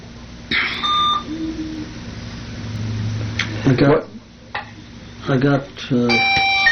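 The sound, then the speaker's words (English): Short electronic bell tones announce the mail call, one near the start and another at the end, with people talking in between. “there's a bell for mail”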